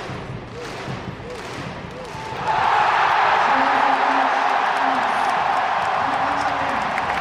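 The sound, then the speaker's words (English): Loud applause and cheering from a crowd in a tennis stadium in Lille, greeting a doubles team at a Davis Cup final. The noise swells abruptly partway through into a steady roar after a voice speaks briefly. “that is the sound of Richard Gasquet and Pierre-Hugues Hébert and, of course, Captain Yannick Noah receiving the warm, the raucous applause of the crowd inside this stadium in Lille”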